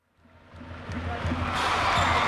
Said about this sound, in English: A player dribbles the ball, then passes it to a teammate who slams it into the net and hangs off the hoop.